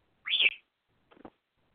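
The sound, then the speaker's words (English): A pet bird tweets: one short, bright whistled chirp that rises and then dips, followed after a pause by a few faint, quick clicking peeps. “I don't know if you can hear him, but he's tweeting very loudly in the background.”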